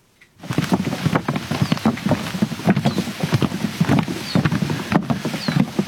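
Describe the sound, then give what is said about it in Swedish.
Footsteps fall on a half-metre-wide wooden plank laid over very wet marshland in an autumn forest near Poland's border with Belarus: many dull, irregular thuds and soft patter that continue steadily after a quiet start. “Vi går på en halv meter bred trästång som är utlagd över den mycket blöta sankmarken mitt i den lätt höstfärgade skogen vid den polska gränsbyn Jawowka.”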